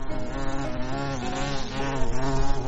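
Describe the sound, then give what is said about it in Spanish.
A bee buzzing as it flies, a steady, droning hum with rich overtones that grows slightly louder toward the end, with no voices. “la alegre abejita salió como siempre cantando y cantando y agitando sus alitas en dirección a los campos de las amapolas”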